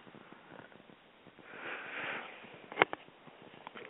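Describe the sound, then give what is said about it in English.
Deep inhaling of essential oil rubbed between the palms: a soft, breathy rush of drawn-in air followed by a short, sharp sniff, faint throughout. “You just put a drop in the palm of your hand, rub your hands together, and then inhale deeply three times.”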